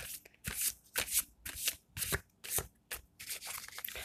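Playing cards being shuffled, with many quick riffling bursts in a steady, even rhythm, each a crisp papery flutter, heard alone without talk.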